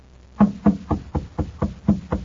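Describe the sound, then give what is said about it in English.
Knocking on the door of a shabby machine shop: eight firm, hollow knocks in an even, unhurried rhythm, alone against a quiet background. “He knocks at the door.”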